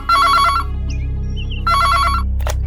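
A telephone rings after a number is dialed: two loud, bright trilling ring bursts separated by a short pause.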